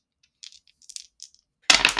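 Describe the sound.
A coin being flipped in a video game, a string of light, high metallic ticks followed by a sudden loud, bright burst of sound.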